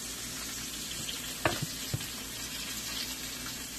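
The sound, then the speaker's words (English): Bacon fries in a pan as it cooks until crispy. A steady, hissing sizzle runs throughout, broken by a few sharp pops and crackles near the middle. “Even if when you have bacon at breakfast, you like it a little more chewy, still cook it until it's crispy for this recipe.”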